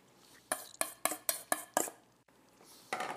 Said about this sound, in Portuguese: E vamos envolver isso aqui. Vamos misturar. Um pouquinho mais da mistura de ovos com queijo.